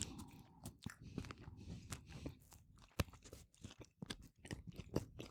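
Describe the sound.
Biting and chewing into a German-style Krakauer sausage, a whole piece sliced open with its skin on and topped with a little mustard: a run of crisp crunches and soft, wet chewing noises at uneven intervals, fairly faint.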